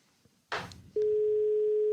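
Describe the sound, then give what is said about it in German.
A telephone ringback tone heard while a call is placed to Berlin: a short noisy burst, then one steady low beep lasting about a second, with no talk. “Und bevor wir uns wie immer dramatisch verspäten, wollen wir in Berlin anrufen bei Matthias Niederberger. Warte, lass mich schnell hier, nicht, dass ich jetzt den Leon wähle.”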